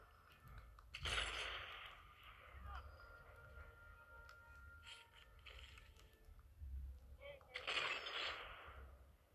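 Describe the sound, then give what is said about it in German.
Sniper rifle fire in the video game Sniper Elite 4: two loud, sharp shots, each trailing off over about a second, with a quieter stretch of game ambience between them. “So, da oben kommen die nächsten, die gerne von meiner Sniper getroffen werden.”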